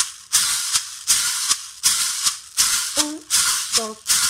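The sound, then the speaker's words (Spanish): A guache, a metal cylinder shaker with small holes and beads inside, is played: a steady series of bright, hissy rattling strokes with sharp attacks, alternating longer and shorter shakes, with a voice briefly sounding between strokes. “se puede cantar e ir tocando el guache. Es un cilindro de metal, todo con agujeritos y adentro tiene,”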